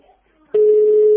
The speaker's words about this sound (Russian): Почему гудки пошли?